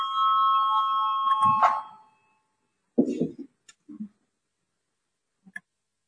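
A bell calling a vote in a parliamentary chamber gives a steady, sustained ring for about two seconds. A few scattered soft clicks and knocks follow amid silence.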